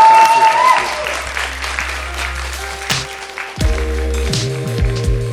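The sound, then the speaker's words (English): An audience applauds at the close of a live talk event. The clapping is a broad, continuous wash, with some tonal, voice-like sound mixed through it. “Can we give them one more big warm round of applause,”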